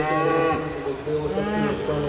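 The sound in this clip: A cow moos at a fair in Grand Island, Nebraska: one long, loud, low and droning bellow that lasts the whole clip, its pitch wavering slightly.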